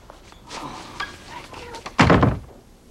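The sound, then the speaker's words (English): A bathroom door being opened, heard as faint shuffling handling noises and then one loud, dull thunk that fades quickly. “He opens a bathroom door and sees toilet paper.”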